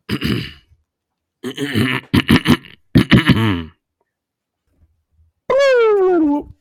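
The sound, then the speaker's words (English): A woman coughs and clears her throat, giving several short, rough, throaty bursts separated by silences, then a longer voiced groan at the end. “my wife coughing in the background”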